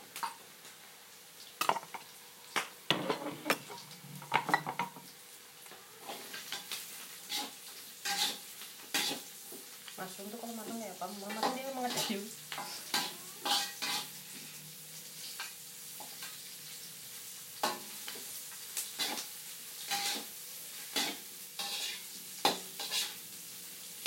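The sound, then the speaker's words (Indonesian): Mushrooms frying in a pan with softened vegetables, a steady gentle sizzle broken by many sharp clicks and scrapes of a utensil stirring against the pan. “Masukkan mushroomnya. Biar dia matang lebih duluan.”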